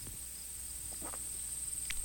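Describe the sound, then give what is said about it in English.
Crickets chirp in a steady, high-pitched continuous drone, with a few soft rustling sounds underneath. “blessaðar fuglarnir sem nutta saman afturfótunum. Crickets.”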